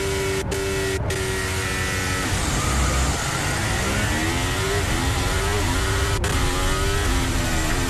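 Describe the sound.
Formula 1 car engine during a practice start at the Monaco Grand Prix free practice, a loud, continuous high-revving whine whose pitch shifts up and down, with a few sharp clicks early on.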